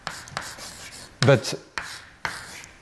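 Writing on a board during a mathematics lecture: a few short, scratchy strokes in quick succession, one noticeably louder than the rest.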